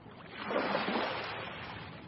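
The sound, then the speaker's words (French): Waves break against a jetty in a small harbour: a single broad, hissing wash of water swells up, then slowly eases off into a steady rushing. “Des vagues sur une jetée. Dans le petit port derrière Malo. Sous un ciel gris.”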